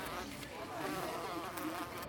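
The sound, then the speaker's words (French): A wasp buzzing as it flies into a drinking glass, a faint continuous drone that wavers slightly in pitch. “une guêpe vient de se garrocher dans mon verre. J'imagine que je vais attendre qu'elle prenne sa gorgée.”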